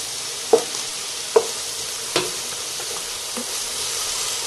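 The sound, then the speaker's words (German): Onions and meat sizzle in a frying pan as they are stirred together. A steady hiss runs throughout, broken by three sharp clicks early on, then fainter stirring noises. “Ja, und das Ganze jetzt tue schon mal die Zwiebeln ein bisschen mit dem Fleisch mischen.”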